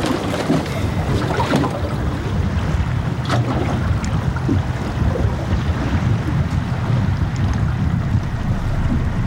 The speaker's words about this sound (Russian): Мотор какой-то.